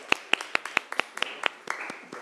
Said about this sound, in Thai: ปรบมือให้ตัวแทนจากกลุ่มที่หนึ่งนะคะ